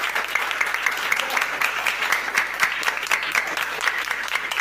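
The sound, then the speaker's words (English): Primary 4 pupils in a class quiz applaud, a lively round of many quick hand claps that ripple unevenly in loudness and carry on steadily throughout, with sharp individual claps standing out against the rest. “A round of applause.”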